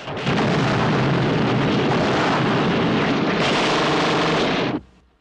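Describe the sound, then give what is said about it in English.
Dense gunfire from soldiers shooting at Germans on a cliff edge amid shell explosions: a loud, continuous roar of overlapping shots that holds steady, then cuts off abruptly near the end. “Many soldiers are hit, but others make it to cover and fire at the Germans on the cliff edge.”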